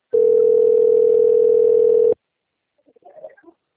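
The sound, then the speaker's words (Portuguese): A telephone call tone: one long, loud, steady beep of about two seconds at an even pitch, then silence with a few faint scattered blips. “Tô recebendo ligação aqui do negócio, né?”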